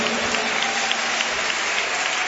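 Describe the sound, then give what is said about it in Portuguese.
Congregation applause at a Pentecostal church service, steady dense clapping sustained evenly through the whole clip with no distinct breaks. “Bate palma e dá glória, glorifica.”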